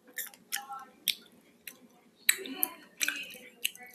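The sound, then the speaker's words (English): Biting into fresh blueberries produces a series of short, sharp, moist crunches and chewing clicks, irregularly spaced and fairly quiet, with a few stronger bites in the second half. “I have two blueberries. I'm going to bite into it”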